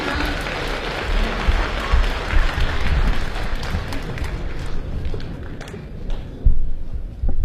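Audience applause welcoming a famous crosstalk master and his apprentice onto the stage at a comedy show: dense, loud, steady clapping from a large crowd that holds for the whole stretch without letting up.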